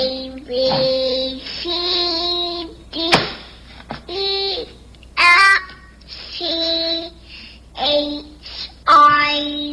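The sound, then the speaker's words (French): A baby babbles through an autotune voice effect. Short bursts of cooing are snapped onto flat, steady pitches with a robotic harmonic tone, separated by brief pauses and a sharp click. “T'entends-tu le R? Ouais, c'est ça l'autotune.”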